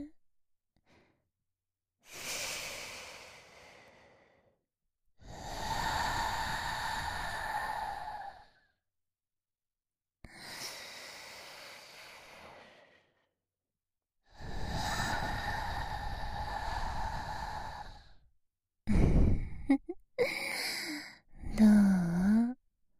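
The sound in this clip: Deep breaths are taken slowly: several long, airy breaths separated by quiet pauses, each drawn out over a few seconds. A few shorter, sharper breaths follow at the end.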